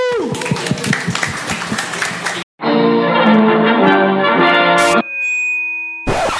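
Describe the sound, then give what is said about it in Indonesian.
Audience applause at the close of a talk event, dense clapping for about two seconds that cuts off abruptly into a sustained tonal passage. “one one more time give a round of applause thank you”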